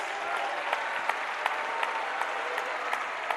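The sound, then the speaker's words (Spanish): A church audience applauding: sustained, dense clapping from many hands, with a steady rhythmic beat of louder claps running through it. “Cuando le dan un aplauso a la gloria de Dios,”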